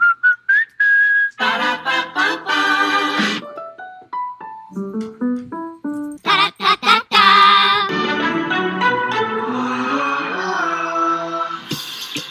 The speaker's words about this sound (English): It's been playing for 15 years on countless McDonald's commercials around the world. But who wrote this jingle?